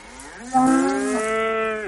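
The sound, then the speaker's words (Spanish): A cow moos in a barn: one long, loud call that swoops up at the start, then holds a steady, droning pitch before cutting off. “Gira hacia unas vacas.”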